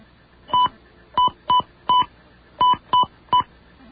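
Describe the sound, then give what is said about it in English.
Telephone touch-tone dialing: seven short, steady beeps of even loudness, spaced irregularly with brief gaps between them, over a faint hiss. “We dial that, and then we dial this.”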